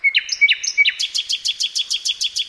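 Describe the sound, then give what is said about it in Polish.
A man imitates jackdaw calls, producing a rapid series of sharp, high, bird-like chirps. A few uneven calls open the run, then a steady, evenly spaced string follows. “To rozumiem, że to chodzi o kawki.”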